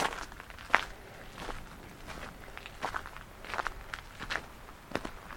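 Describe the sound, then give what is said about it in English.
Footsteps walk outdoors toward a bay, with many soft, irregular crunching steps that are faint overall and include a few sharper footfalls. “I'm just walking into the sun to see a bay”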